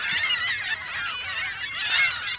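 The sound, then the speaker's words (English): Many gulls call together in a visitors' parking lot at Point Beach on the Lake Michigan shore: a continuous, dense chorus of overlapping shrill cries with no talking. “Dozens of gulls gather in the visitors' parking lot at Point Beach.”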